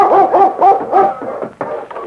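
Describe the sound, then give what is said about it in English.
A dog barking in a quick series of several short, loud, tonal barks with an arched yelping pitch, followed by a few weaker, rougher barks toward the end. “Oh, the dog came.”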